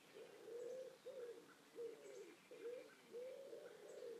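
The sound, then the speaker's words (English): Pigeons coo from a nearby tree in a run of soft, low, rolling phrases repeated at a steady pace, with faint higher chirps from other birds. “As you can hear, there's some lovely pigeons in the tree just nearby.”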